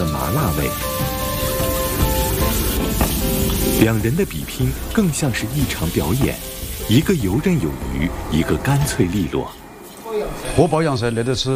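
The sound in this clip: Loud sizzling and hissing of lamb being quick-fried in a hot wok during a cooking contest, a steady crackle that runs under continuous talking throughout.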